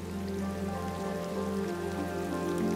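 Rain falling in a steady, even hiss of pattering drops at moderate level, with a soft, sustained tonal drone running underneath throughout.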